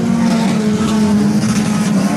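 A race car engine drives on a track during a race, giving a loud, steady, droning whine that holds a nearly constant pitch from start to finish.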